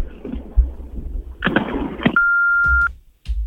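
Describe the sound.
A single steady answering machine beep at a mid-high pitch, held for under a second after a voice speaks a recorded greeting, followed by a short burst of noise.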